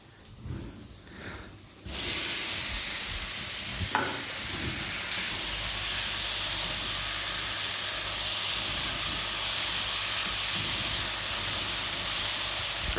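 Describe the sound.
Chicken pieces sizzling in a hot frying pan: after a quiet start, a loud, steady, hissing sizzle takes over and holds to the end, with one brief clack a couple of seconds in.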